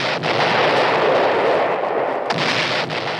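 A bomb explosion sound effect: a loud, dense roar that holds steady for about three seconds, broken by a couple of brief dips.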